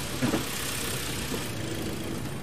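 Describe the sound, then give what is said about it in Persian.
A freshly refuelled car engine idles just after being started, producing a steady, fairly quiet low rumble with a brief bump near the beginning. “ببینم ماشین بنزین داره؟ بله تازه پرش کردم. یه استارت بزن. روشن شد.”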